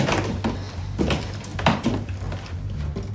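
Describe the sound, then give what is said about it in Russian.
A lock is unlocked and a door opened into an empty room: a few soft clicks and wooden thunks over a steady low hum, with no voices. “Париса отпирает замок. Они входят в пустую комнату.”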